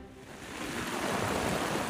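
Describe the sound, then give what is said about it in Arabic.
Heavy rain and rainwater flooding a fish market in Latakia produce a steady, broad hiss of falling and running water that swells slightly louder partway through and then holds, with no voices. “الأمطار ما عم تهدى باللاذقية، ونحن هون بسوق السمك عم نعاني من قصة الصرف المطري.”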